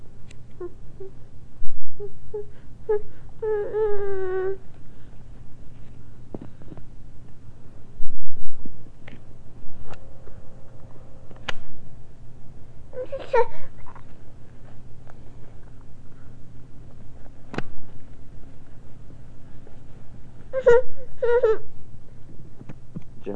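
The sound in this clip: A baby fusses and whimpers late at night: a few short, high, wavering whimpers come in separate bursts with quiet gaps between them, over a faint steady low hum.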